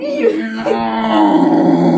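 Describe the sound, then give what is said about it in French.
A human voice imitates a bear's howling roar in a forest scene: a low, loud, drawn-out groaning growl that holds steady for about two seconds without a break. “Vous entendez le... hurlement de l'ours qui se prolonge par un...”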